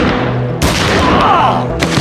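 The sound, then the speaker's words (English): Two loud pistol shots from Detonics Scoremaster handguns, each a sharp, booming crack a little over a second apart, set against a steady low background rumble. “The Detonic Scoremasters bucked once each in his hands as Rourke wheeled toward the barricade.”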